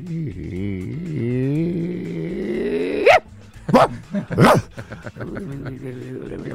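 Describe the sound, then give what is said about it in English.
A dog makes a low, Chewbacca-like groaning noise through lips shaped like a little trumpet, a wavering pitched moan with rising and falling contours, followed by a few short sharp bursts. “He just makes this sort of Chewbacca-y noise. I'll record it tonight so you can actually hear this noise, because he sort of shapes his lips like a little trumpet and sort of goes...”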